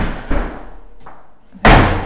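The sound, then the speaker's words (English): A heavily slammed door bursts into a loud, sharp bang near the end, after an earlier, softer thump. “Jesus Christ. Okay. Just a very heavily slammed door.”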